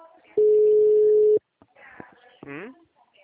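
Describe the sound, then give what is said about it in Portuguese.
A single long ringback tone from an outgoing phone call: one steady, mid-pitched beep lasting about a second, followed by a voice speaking. “eu tô ligando pra Patrícia”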